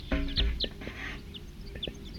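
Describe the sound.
Wild birds calling: several short, high chirps scattered irregularly over a low, rumbling background, with a few fuller clucking notes mixed in, moderately loud.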